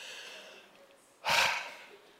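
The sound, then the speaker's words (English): A single deep breath, a short breathy rush of air that swells and fades in under half a second, loud against an otherwise faint, quiet background. “Everybody breathe in really deep. And let's let it go. Try it again.”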